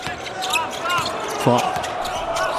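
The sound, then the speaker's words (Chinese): A basketball is dribbled during a game, China's side trailing in the second quarter, with low dull bounces under continuous commentary and crowd noise, the clearest thump about halfway through. “冯奥运球找节奏，投一个短了”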